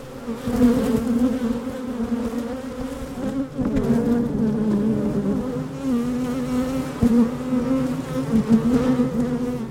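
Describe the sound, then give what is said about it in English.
Bees buzz inside a hive, picked up by a shotgun microphone with its windscreen removed and pushed down into the hive. A dense, steady hum drones without a break, with small swells and wavers in the swarm's tone. “So we took the windscreen off and stuck the microphone down into the hive.”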